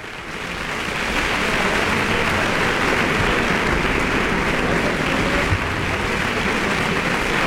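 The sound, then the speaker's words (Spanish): Enthusiastic audience applause in the concert hall of Centro Cultural Tlacna after a Dvořák violin concerto played by the Xalapa Symphony Orchestra: dense, steady clapping that swells in the first second and then holds at an even, loud level. “Usted puede escuchar el entusiasmo del público reunido el día de hoy en la sala de conciertos del Centro Cultural Tlacna.”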